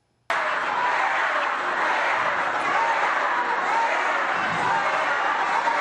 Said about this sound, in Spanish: este fin de semana se viralizó un video donde parecía que el público estaba abuchando a la presidenta mexicana Claudia Sheinbaum durante un acto en Colima.